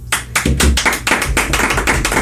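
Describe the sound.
Audience clapping at a live music show where a battle of the bands is being announced: many loud, sharp claps in a fairly steady, quick rhythm that fill the whole clip.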